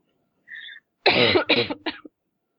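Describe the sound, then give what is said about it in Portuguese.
A person's harsh coughing fit, three short bursts close together in quick succession, loud and alone. “Por que eu não tô parando de tossir, gente?”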